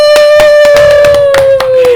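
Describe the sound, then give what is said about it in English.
Rhythmic clapping, a steady beat of evenly spaced sharp claps over a loud sustained tone that drifts slightly lower in pitch. “Round of applause.”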